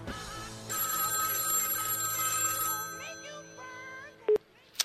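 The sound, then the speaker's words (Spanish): A telephone rings with an incoming call on a call-in line: a loud electronic trill holds for about two seconds, then gives way to fainter warbling tones and ends with a couple of sharp clicks. “en este momento entra una llamada”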